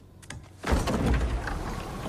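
A door is opened for arriving guests: a couple of faint clicks, then a sudden swell of broad rushing noise that stays steady to the end.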